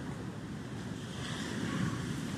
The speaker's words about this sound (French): la mer, elle monte, c'est un truc de fou.